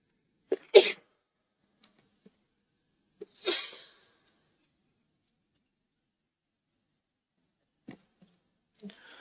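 Two sneezes, each a short, sharp burst, about three seconds apart in near silence, followed later by a few faint small sounds.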